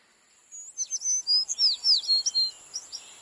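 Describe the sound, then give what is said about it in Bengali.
A beautiful bird call heard on waking: a rapid series of many bright, high chirps and whistled notes, clear and alone, tapering off into a few sparser notes at the end. “ঘুম ভাঙল সুন্দর একটা পাখির ডাকে।”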